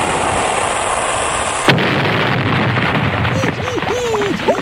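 Cannon or torpedo firing sound effect: a sudden sharp blast cuts through a dense roaring hiss, followed by a continued rumbling wash of noise.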